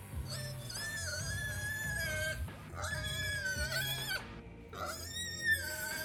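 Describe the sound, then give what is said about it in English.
A voice imitates a squealing piglet during a game: high, wavering squeals in several sustained bursts over a low steady background. “Can it sound like a piglet”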